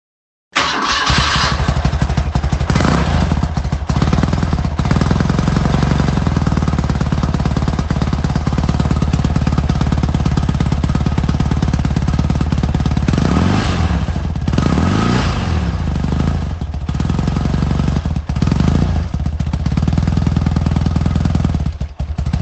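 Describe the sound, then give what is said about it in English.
R80 G/S boxer motorcycle engine starts abruptly and runs for over twenty seconds with a loud, steady throbbing idle, broken midway by a few revs whose pitch rises and falls. “this one's maybe not so easy, but we had to include a boxer in there, didn't we?”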